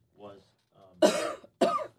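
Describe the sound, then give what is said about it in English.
A woman coughs into a live microphone: two loud, harsh bursts follow a short voiced sound. “You just muted me while she coughed into a live mic”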